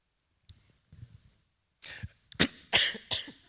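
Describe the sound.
Coughing from someone who nearly inhaled chewing gum: a few harsh, breathy coughs in quick succession, with faint low throat and mouth sounds before them.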